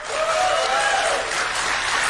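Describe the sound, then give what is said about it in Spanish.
Audience applause at a political rally rises as a dense, steady wash of clapping, loud and sustained for about two seconds, with a faint shouting voice briefly riding over it. “improvisando entre los asistentes un sondeo de aplausos entre su vicepresidente y su secretario de Estado.”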